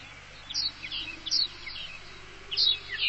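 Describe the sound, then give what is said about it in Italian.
A caged goldfinch sings a few bright, high-pitched chirps and short trills, separated by brief gaps, over a low steady hum. “Guardi, milord, un cardellino in gabbia.”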